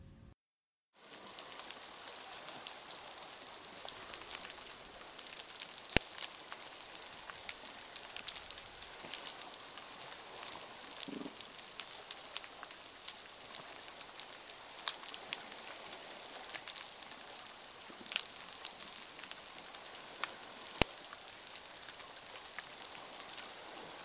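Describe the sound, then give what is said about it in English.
Dense crackling and popping from an underwater recording on the Mesoamerican coral reef, a steady bright hiss of clicks that begins after a brief silence and carries on unbroken, with a few louder snaps standing out. “Let's listen to another coral reef recording. See how many different types of sounds you can isolate.”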